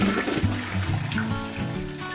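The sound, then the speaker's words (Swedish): A toilet flushes with a rushing, gurgling surge of water that stays loud and steady for about two seconds, with no voices. “Vi människor brukar ofta bara spola ner vårt bajs i toaletten.”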